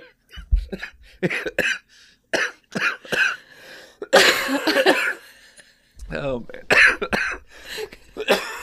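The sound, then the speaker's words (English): Someone with a lingering cough after a sore throat coughs repeatedly in short, irregular bursts. The fits vary in strength, with one longer, rougher burst midway, and brief quiet gaps separate them. “And then as my sore throat went away, I got this stupid cough.”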